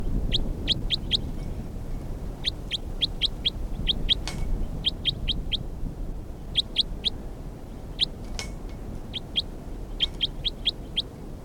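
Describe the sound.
Bird calls from a field recording, many short, high, sharp chirps in quick bursts of three or four, repeated at irregular gaps throughout over a faint, low background hiss with a couple of soft clicks.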